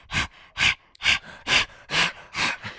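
A person pants rapidly like a dog, imitating the sound with about seven sharp, breathy huffs at an even, quick rhythm, each a short burst of air, with the last one slightly weaker.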